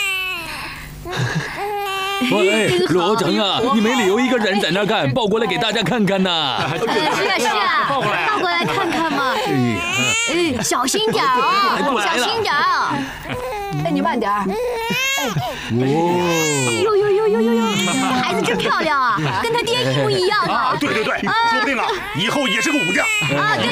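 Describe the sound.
A newborn baby boy crying loudly and without pause, in high, wavering wails that rise and fall in pitch and are broken by short gasping breaks.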